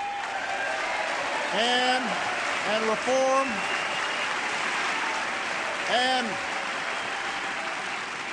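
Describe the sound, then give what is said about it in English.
Hesitant, scattered applause from an audience at a political speech, a soft continuous patter with a voice speaking briefly over it a few times. “You can hear the hesitant applause on some of those lines.”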